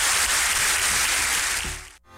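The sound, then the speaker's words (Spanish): Congregation applauding during a church service, a loud, dense wash of clapping that holds steady and then cuts off abruptly near the end. “Démosle un buen aplauso.”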